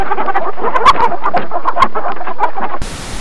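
Chickens on a farm: many overlapping clucks and short calls in a busy, continuous flock chatter, loud and without voices, ending abruptly in a hiss.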